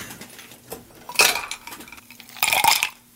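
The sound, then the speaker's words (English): Ice cubes clatter into a cocktail glass as a drink with vermouth and chartreuse is being mixed: two short, bright bursts of clinking and rattling, the second longer, with quiet handling sounds between. “All right, let's put the ice.”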